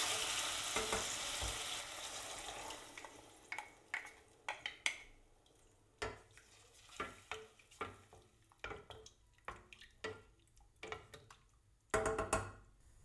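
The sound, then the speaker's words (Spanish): Mushrooms fry in a casserole as picada from the mortar is poured over them, for a dish of black peas and cod tripe. A soft sizzling hiss gives way to many sharp scraping and clacking stirring strokes, fairly quiet, with no talk. “En este momento las setas ya están a punto y lo próximo que haremos será verter sobre ellas la picada que tenemos en el mortero.”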